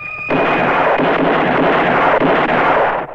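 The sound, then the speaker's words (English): Rapid pistol gunfire as a stranger fans his revolver in a gunfight, bursting in abruptly after a brief quiet moment and continuing as a dense, booming barrage for about three seconds before cutting off. “Suddenly, Ramon and the others go to shoot. The stranger fans his pistol.”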